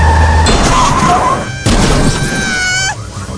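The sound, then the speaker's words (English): Smashing crash of a window being broken through in a golf video game, heard as harsh, noisy bursts with squealing tones over a loud, busy mix. “Stop breaking through the window, Kenny. Oh, I'm gonna crash, I'm gonna crash.”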